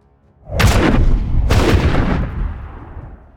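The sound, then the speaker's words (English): Booming explosions from a rocket striking a rocky formation in a military setting: two heavy, concussive blasts about a second apart, each trailing into a long, loud rumble that slowly fades. “The rocket unleashed its fury on the rocky formation where Usha was positioned, exploding with concussive force.”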